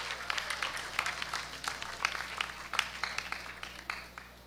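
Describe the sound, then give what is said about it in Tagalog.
Applause for the guards and cleaning staff of the TAPS campus, a moderate patter of many hands clapping over a low steady hum, with sharper claps standing out here and there. “Palakpakan po natin sila.”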